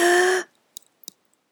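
A deep, voiced sighing exhale after a held breath, with a breathy hum that lasts about half a second and cuts off, followed by near silence with a few faint small clicks.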